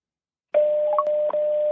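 Telephone tones as a number is dialled: a steady mid-pitched electronic tone holds throughout, broken by a couple of brief blips.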